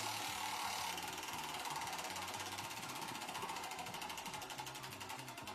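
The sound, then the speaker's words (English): A prize wheel spins, its pointer ratcheting against the pegs in rapid, evenly spaced clicks that run without pause, fairly faint and with no voices. “You are going to spin our Wheel of Funny to see which comedy show you get to go to at the Taft Theater. So let's give this thing a whirl, shall we?”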